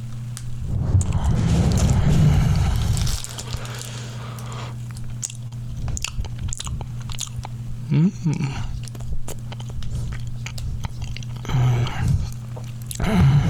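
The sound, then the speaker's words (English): Close chewing and biting of homemade banana bread, soft wet mouth sounds and small crunches coming in uneven bursts over a steady low electrical hum, with no talk. “I have a little bit of banana bread that my mom made me, and I'm just going to take it out of the wrap. Now I'm just going to place a little bit in my pie hole here.”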